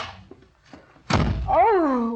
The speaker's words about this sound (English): must you slam the door, darling?